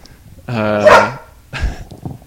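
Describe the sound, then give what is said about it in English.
A dog lets out one loud, drawn-out bark with a strongly tonal, howl-like quality, lasting under a second before quieter sounds follow. “sorry, that was my dog.”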